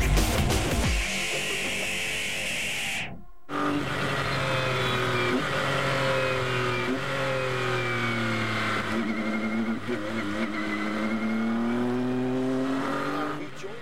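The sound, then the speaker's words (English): Race car engines roar at the start of a race approaching turn one. The loud, buzzing revs climb and drop repeatedly as the drivers shift gears, continuous throughout. “Now here, we'll see turn one. This is what it looks like at the start of the race.”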